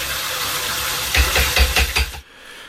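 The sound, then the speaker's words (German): Toilet flush: a loud, steady rush of water swells into a few gurgling surges, then cuts off abruptly into near silence. “Ah, hättest mit Spülen nicht warten können.”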